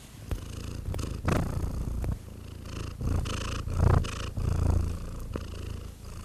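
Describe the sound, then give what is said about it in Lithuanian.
A cat purrs while having its face scratched, a low, rumbling throb that pulses steadily in repeated swells, moderately loud and heard alone without voices. “Nu, labai gražiai murkė. Labai mėgsta micė, kai jai veiduką kasai.”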